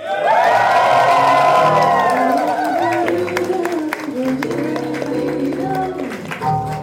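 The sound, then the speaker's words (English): A short burlesque-themed jingle is played at a live stage event, loud and busy, with whooping, cheering voices and sustained tonal lines that blend under the crowd noise throughout. “So that was a little jingle for Burlesque Podden that started this week.”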